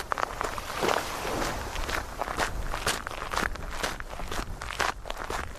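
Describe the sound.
Footsteps walking down to the tiny beach of Penouet at the end of Moria, the last beach before the Pointe des Poulains: many steady, crunchy steps in an even rhythm over a continuous background hiss.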